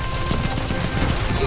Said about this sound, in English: I think they can see me, but I'm not entirely too sure, but I'm gonna try and shoot them anyway. Got one.